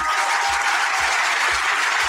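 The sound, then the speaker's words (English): A round of applause at an award ceremony, honouring two journalists, a loud, even roar of many clapping hands that sustains without pause for about two seconds. “So I'd like a round of applause for them, please.”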